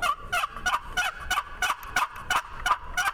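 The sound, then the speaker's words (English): A Turpin turkey call sounding a hollow, double-note fall call used to draw gobblers: a long, steady run of many raspy, evenly paced yelps of similar loudness, with no voices. “good thing about Turpin calls, they got that hollow double note sound.”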